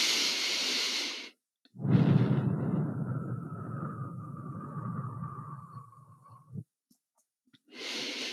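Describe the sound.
Slow, deliberate breathing in a relaxation exercise. A short inhale is followed by one long exhale that stretches over several seconds and fades, then a pause and another inhale, all quiet and with no talk.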